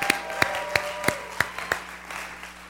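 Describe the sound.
A church audience applauds a welcomed guest, with a few sharp claps at a steady rhythm standing out over a dense wash of clapping that slowly fades.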